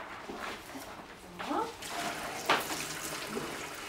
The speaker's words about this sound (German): Magst du den Salat waschen?